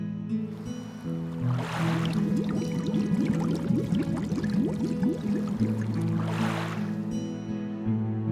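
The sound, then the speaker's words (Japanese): Water is poured into a bottle, a splashy, gurgling stream running for several seconds against a steady musical backing. “このお水を持っていこっかきっと元気になれるはずよしこのボトルに入れて持っていこう”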